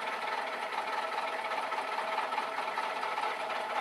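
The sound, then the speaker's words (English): A rattling vehicle engine idles while waiting at a traffic light, giving a continuous, fairly faint, rough clatter like loose tin rattling under the hood, steady throughout. “I don't want to sit next to this vehicle that sounds like it's juggling Legos, tin cans under its hood.”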